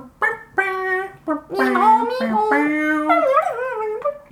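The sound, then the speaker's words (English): A singing dog character from a video game vocalizes in a babbling, synthetic sung voice: a quick run of short melodic syllables on shifting notes, loud and alone. “KK Slider, the local singing dog, would come on Saturday nights at 8 p.m. And he sounds like this.”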